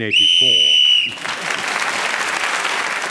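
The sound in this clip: A referee-style whistle sounds a steady, shrill blast of about one second to end a timed round in a panel game, then gives way at once to sustained audience applause.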